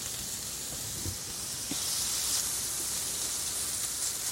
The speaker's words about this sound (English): you want to scoop in the red peppers and the onions. And we're just going to stir those around for 3 to 4 minutes until the onions are translucent.